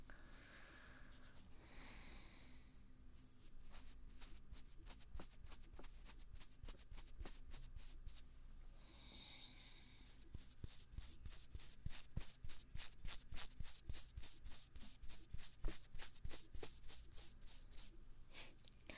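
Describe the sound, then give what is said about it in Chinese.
A toothbrush scrubs a child's tongue with rapid, rhythmic bristle strokes. The brushing is quiet at first, then grows louder and more regular in the second half, with many quick scrapes in a row. “把舌头伸出来。用牙刷刷刷你的小舌头，啊，张嘴，把舌头，吐出来，快点！”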